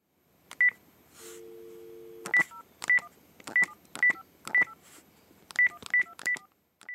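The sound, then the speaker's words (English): A telephone number is dialed on a keypad: a single beep, then a steady low dial tone, followed by a rapid run of crisp, high keypad tones in short irregular clusters. The tones are loud and clear over quiet silence. “He's dialing a number.”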